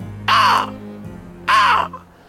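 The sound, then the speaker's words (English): A large black crow circling overhead gives two loud, harsh caws separated by a short pause, followed by a brief, faint extra note. “As a huge, ginormous black bird seems to spot you from the sky, and Hondok”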